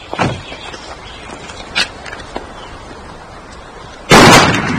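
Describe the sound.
Gunfire at target practice: a few sharp pops spaced apart, then a much louder, longer burst of noise near the end.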